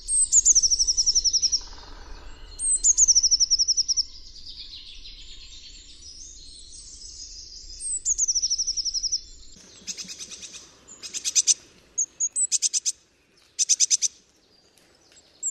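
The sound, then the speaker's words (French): A blue tit sings high, thin, repeated phrases of quick descending notes. Later come sharper bursts of rapid, clipped trills, bright and clear against a quiet background. “Un beau chant de mésange bleu, vous l'avez reconnu ?”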